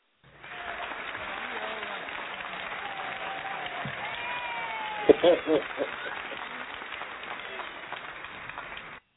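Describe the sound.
Studio audience applause welcomes a sports guest onto a show: sustained clapping that rises quickly and holds steady for several seconds, with voices calling out over it and a few sharper peaks near the end.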